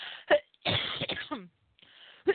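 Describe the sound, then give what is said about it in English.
A person with a lingering cough coughs and clears their throat in a few harsh, breathy bursts. A longer rasping stretch comes in the middle, with short sharp hacks before and after it. “my cough is still here”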